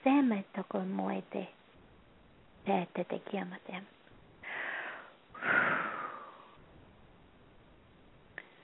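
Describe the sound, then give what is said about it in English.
Slow guided breathing during a meditation-style session. After brief speech, a soft, drawn-in breathy inhale is followed by a longer, fuller exhale that swells and fades away. “Nice inhale and exhale.”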